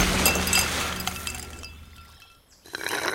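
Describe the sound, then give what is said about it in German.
Ice cubes clink and clatter in a glass of lemonade. A burst of bright glassy clinks and rattling opens the sound, then thins out and fades, with a brief rustle near the end. “Willst du noch mehr Eiswürfel”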